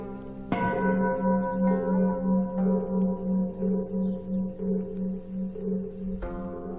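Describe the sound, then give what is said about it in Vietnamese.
A temple bell is struck and rings on in a long, humming, gently pulsing tone, then is struck once more near the end. “Bất giác cô nghe có tiếng ai gọi, lẫn trong cái tiếng chuông mõ vẫn cứ vang lên như thế.”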